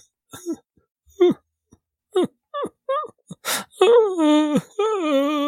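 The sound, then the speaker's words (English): A voice imitates soft sobbing from a dark building in a small town: several short, breathy whimpers and catches, followed by longer wavering, moaning wails. “as you're walking down the road, you can hear in the darkness of some building the soft sobbing.”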